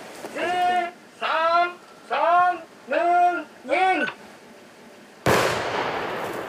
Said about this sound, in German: 400 Meter Draht von der Bombenfundstelle bis zu einem sicheren Ort für die Sprengung. Jedes Mal müssen sie das Gelände absperren, sicher gehen, dass keiner in der Nähe ist. Achtung, Achtung, wir sprengen jetzt.